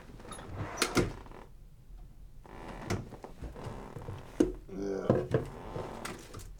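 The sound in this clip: A drawer is pulled open during a search for a picture, giving wooden thunks and sliding rattles with a little speech mixed in.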